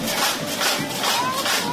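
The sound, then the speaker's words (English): Crowd noise from the Santa Barbara Summer Solstice Parade, a colorful street celebration with floats and costumed marchers, forms a dense, steady roar with a few gentle swells and no clear individual voices. “That's the sound of last year's parade.”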